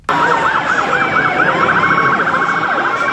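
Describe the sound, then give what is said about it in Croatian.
Police car sirens wail through New York's blocked city streets during the September UN gathering. One loud, continuous siren rises and falls in slow sweeps, then shifts to a faster warble, with no voices. “Policijske sirene, blokirane ulice.”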